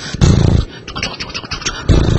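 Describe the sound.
A voice imitates a horse galloping at full speed and then coming to a stop. Short, rhythmic vocal bursts pound along quickly, with a heavier burst at the start and another at the end.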